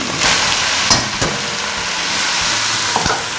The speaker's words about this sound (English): Now I'm stirring this rice so that the rice is coated with the ghee or oil.